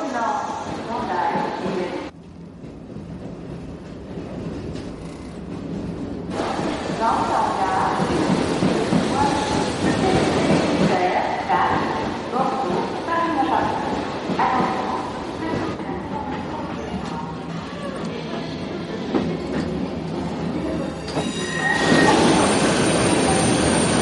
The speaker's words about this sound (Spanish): Días después, Yoyes viaja en tren.